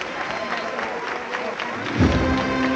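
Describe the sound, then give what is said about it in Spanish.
Applause breaks out from a street crowd as a Holy Tuesday procession steps out of its church onto the street, a steady patter of clapping mixed with crowd murmur, with a low thud and a brief rising tone near the end. “Medio paso en la calle, comienzan los aplausos, se toca la corneta”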